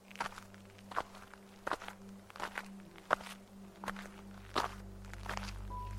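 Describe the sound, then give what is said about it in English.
Footsteps of people walking together down a road, one favouring an injured foot while leaning on the other. Steady, evenly spaced footfalls repeat many times at a moderate pace over a constant low hum. “He helped me take some of the pressure off my foot while we walked down the road.”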